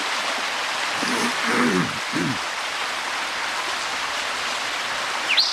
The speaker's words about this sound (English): Bad creek noise.